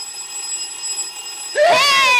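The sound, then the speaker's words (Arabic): A telephone rings out suddenly over a steady tonal hum, its loud, warbling electronic ring swelling in and continuing to the end. “ايه ده؟ ايه ده؟ التليفون راني نطق.”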